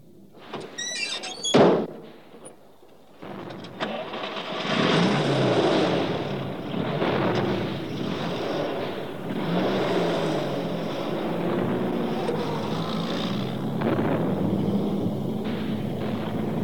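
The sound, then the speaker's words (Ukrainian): A car door shuts with a sharp bang, then a commander's staff car pulls away, its engine rising into a steady, rumbling drive that continues to the end. “Сядайте в машину. Сядайте, товариш генерал. Есть. Дозвольте запитати, товариш командуючий, у вашу машину? Так, в мою.”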